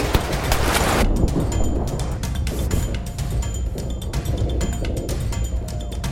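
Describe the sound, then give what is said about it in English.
Gunfire in a chaotic firefight: many sharp, irregular shots crack in rapid, overlapping bursts over a constant noisy roar, loud and dense for the whole stretch with no clear pauses. “Everyone turned on each other, firing wildly.”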